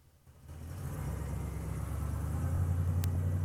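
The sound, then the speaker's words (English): A car engine as the car drives off: a low, rumbling hum that swells from quiet over the first second, then holds steady and grows slightly louder. “They get in and Jeffrey drives off.”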